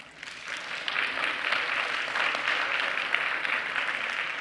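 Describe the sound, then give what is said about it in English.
Audience applause welcomes two volunteers at a New Life church gathering, a dense, even wash of clapping that swells in within the first fraction of a second and holds steady through to the end. “Let us put our hands together to welcome Sharon and Helen.”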